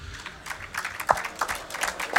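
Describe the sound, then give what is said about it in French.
Scattered hand claps from an audience at a live concert, irregular and uneven, with a few louder, sharper claps standing out from softer clapping. “merci d'applaudir pour ce dernier live ce soir”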